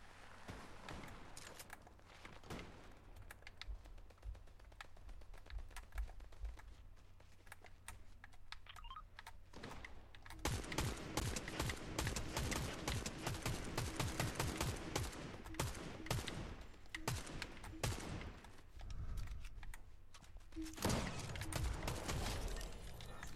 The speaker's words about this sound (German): Da hinten hat jemand Spaß mit irgendeiner Waffe.